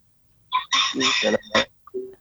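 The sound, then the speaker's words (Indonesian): A rooster crows in one loud, drawn-out call, followed by a short clucking note. The sound is clear, with no talk over it. “Duluan ayamnya.”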